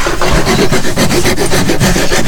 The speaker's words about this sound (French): Passe la lime, la râpe. Tu dégrossis là, là, et après à la ponceuse, enfin à main